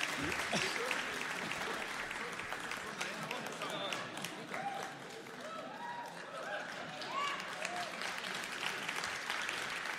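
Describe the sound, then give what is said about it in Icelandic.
Applause for a friend and family friend of the host, a sustained crowd clapping for about ten seconds, with voices and shouts mixed through it and a brief dip in the middle. “Hann vinur og fjölskylduvinur, Ísleifur. Klöppum fyrir honum.”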